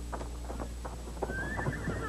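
Faint clip-clop of hooves as horses are ridden off, a quick run of soft, irregular hoofbeats over a steady low hum.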